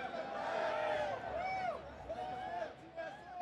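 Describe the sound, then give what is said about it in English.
A crowd at a live event chants TSM, its repeated rising and falling tones riding over loud, steady crowd noise and babble for the whole stretch. “Oh, we're already getting TSM chants. Have you gotten a few of those already?”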